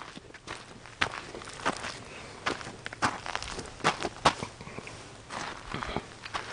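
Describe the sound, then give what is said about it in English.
Footsteps walking outdoors at a placer mining site, many crisp, crunching steps on rough ground in an irregular rhythm, some louder than others, with no voices over them. “We'll walk up this way now.”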